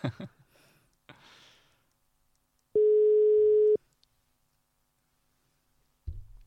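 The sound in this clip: A telephone tone sounds while a call is being placed: a single steady, mid-pitched tone lasting about a second. Quiet, brief rustles come before it, and a soft low thump follows near the end.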